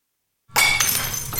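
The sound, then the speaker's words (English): Glass smashes inside a rage room event space: after a half-second of silence, one loud shattering crash hits, then bright breaking and tinkling debris that rings on and fades only slightly. “This is what it sounds like inside an event space designed to help people get some rage out.”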